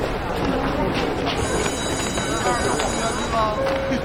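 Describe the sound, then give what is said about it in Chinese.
A train at a railway station gives a continuous loud rumble with thin, high squealing tones from the wheels, and voices are mixed in throughout. “列车预计三分钟后驶离本站”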